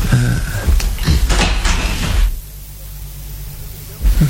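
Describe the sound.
A door is opened: a few knocks and clicks over a steady hiss, followed by a quieter stretch of hiss and a last soft knock at the end.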